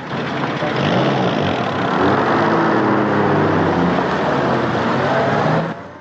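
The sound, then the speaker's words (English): A black Rolls-Royce car drives along a lane lined with barbed wire, giving a steady, loud engine and road drone that holds evenly for several seconds before cutting away near the end, with no voices. “A black Rolls-Royce glides along a lane lined with barbed wire.”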